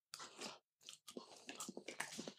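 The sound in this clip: Chewing on freshly made Riebel, a cornmeal dish soaked in milk and still slightly grainy; soft, crunchy mouth noises come in a few bursts separated by short pauses, with no talking.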